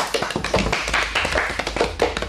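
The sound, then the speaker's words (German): Applause from a small group at a quiz results announcement: brisk, uneven hand clapping with dense overlapping claps that keeps a steady level for a couple of seconds. “Applaus bitte einmal.”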